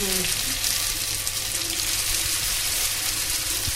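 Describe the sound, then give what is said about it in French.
Small triangles of dough fry in oil in a pan, giving a dense, steady sizzle with crackling pops throughout and faint voices beneath. “Donc les petits triangles sont jetés dans la poêle avec l'huile.”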